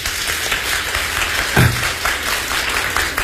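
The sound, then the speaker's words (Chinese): Audience applause at a live crosstalk comedy show before a Peking opera painted-face aria, a dense, steady wash of clapping that holds at an even loudness throughout. “来，大伙儿掌声。”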